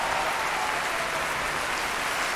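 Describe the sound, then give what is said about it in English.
A theatrical storytelling audience applauds, giving a dense, even wash of clapping with no pauses over a short stretch. “You may applaud.”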